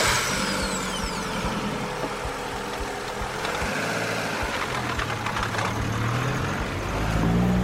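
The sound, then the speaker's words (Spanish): A car pulls up in a small village during the olive harvest, its engine a steady rumble with faint, regular ticking and a low tone swelling near the end. “viene a buscarla en su coche”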